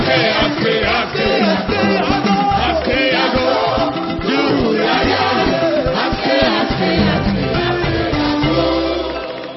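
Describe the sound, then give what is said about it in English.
A church audience shouts and cheers in praise to the Lord, a loud, dense wall of voices that carries on without a break for nearly ten seconds. “Will you stand up and give the Lord a big clap and a shout of praise?”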